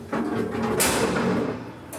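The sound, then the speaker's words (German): A sliding gate on a polar bear stall is opened, giving a steady scraping, rumbling noise for nearly two seconds with a brighter, harsher rush near the middle. “Kannst den Schieber aufmachen.”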